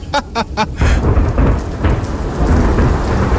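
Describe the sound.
Thunder and heavy rain in a storm with lightning, heard outdoors: a few sharp cracks open it, then a loud, sustained rumble with dense rain hissing throughout.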